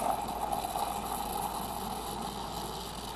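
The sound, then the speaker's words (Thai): A small electric milk frother whips milk into foam, giving a continuous, steady whirring drone with a slightly hollow, buzzing tone and no pauses. “แต่เดี๋ยวเราจะตีฟองนมก่อนนะครับแล้วก็ทำการใส่ฟองนมด้านบนนะครับ”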